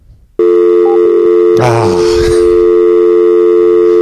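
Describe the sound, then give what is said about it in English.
Telephone keypad tones dial two digits on an emergency call: two short beeps over a loud, steady tone, followed by a brief noisy burst. “That was them picking up, though, and they kept dialing two digits.”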